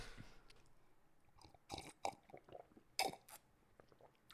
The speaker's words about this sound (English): You drink so loudly, bro. I actually had to try to drink that loudly.